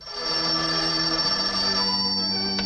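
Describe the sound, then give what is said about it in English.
A desk telephone rings unanswered, heard as a loud, steady, continuous bell-like tone rich in bright overtones that holds without a break for the whole stretch, with no talking. “Ignoring the phone, Mike paces.”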